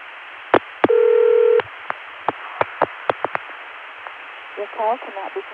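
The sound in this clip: Touch-tone telephone dialing on a 293 code routed through Chicago to an ESS exchange: one longer tone, then a quick run of short tone pips, then a brief voice-like burst.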